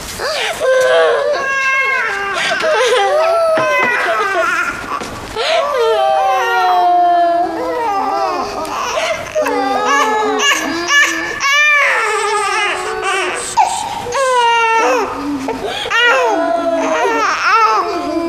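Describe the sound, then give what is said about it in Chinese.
A child cries loudly in wavering, high-pitched wails and sobs that rise and fall continuously, with other voices talking over and between the cries. “别哭了，把妹妹都吵醒了。”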